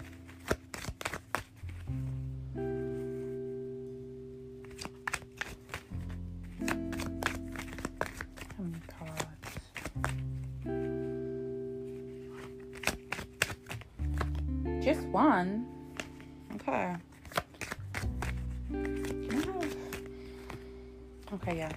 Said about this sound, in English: Make a wish while I shuffle the cards